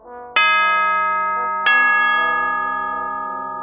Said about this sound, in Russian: даже сквозь сон услышал, как громко и ясно где-то рядом забил колокол.